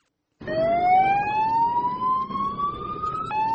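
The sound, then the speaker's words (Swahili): Ambulance siren at the Garissa University attack in Kenya starts abruptly and wails as one loud sustained tone that climbs slowly in pitch over a low rumbling vehicle engine. “Taswira hii ya magari ya kuhudumia majeruhi ilishuhudiwa Aprili mwaka jana pale magaidi wa Al-Shabaab walipovamia chuo kikuu cha Garissa mkoani kaskazini mashariki mwa Kenya na kuua watu wengi.”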